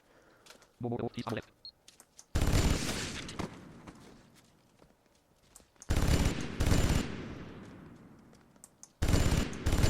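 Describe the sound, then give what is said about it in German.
A Vulcan minigun fires in a video game in three long, loud, dense bursts of rapid shots. A fading rumble trails off between the bursts, and a few short, quieter sounds come before the first one. “Oh, hier mich durchzuballern, habe ich echt keine Lust drauf. Das wird der Einsatz für die Vulkan Minigun.”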